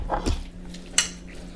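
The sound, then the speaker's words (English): A utensil clinks and scrapes in a bowl while mayo, sriracha, salmon and rice are mixed together. The soft knocks are brief, with one sharper clink near the end. “All right, so now we have to mix up the mayo, sriracha, salmon, rice.”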